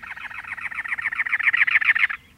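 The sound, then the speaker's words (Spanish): A cactus wren singing from atop a cactus in the Arizona desert in late April: a rapid, harsh, chugging series of many even, rhythmic notes, growing louder toward the end before stopping abruptly. “Una matraca del desierto canta posada en lo alto de un cactus.”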